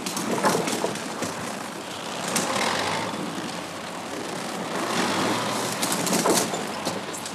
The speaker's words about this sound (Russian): К большому зданию подъезжают 2 груженных дровами грузовика.